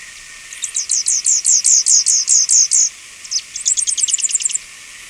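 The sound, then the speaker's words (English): Grassland Yellow Finch song: a run of bright, high, down-slurred notes in a steady rhythm, a brief pause, then a faster, tighter trill of similar high notes, loud and clear with no other sounds. “Grassland Yellow Finch, 1.”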